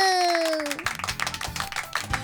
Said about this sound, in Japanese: はい、拍手。